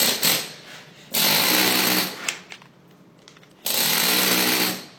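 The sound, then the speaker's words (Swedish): Stone being hand-dressed with a toothed chisel on church masonry, giving a rapid rattling, chattering clatter that comes in a few loud sustained bursts separated by quieter gaps. “Med det här... tandhuggning, du får ett helt annat djup och ett helt annat utseende på stenen.”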